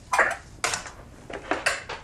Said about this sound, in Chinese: 你赶紧帮我准备一个盘子啊。